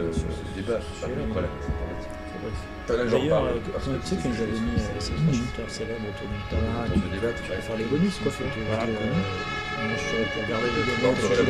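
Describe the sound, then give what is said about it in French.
Loud emergency vehicle sirens wailing with harsh tones amid dense noise, while people talk over them throughout. “Alors putain de sirènes, comme elles sont fortes”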